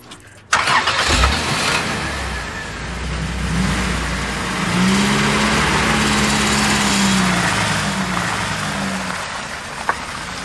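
A car engine fires up abruptly and settles into a steady, rumbling idle that grows somewhat louder partway through, with a faint click near the end.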